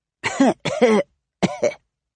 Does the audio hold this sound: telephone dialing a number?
no